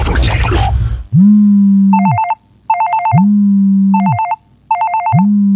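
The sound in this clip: A telephone rings in a repeating pattern of a steady low tone and bursts of high warbling trill, loud and clear after a brief voice at the start.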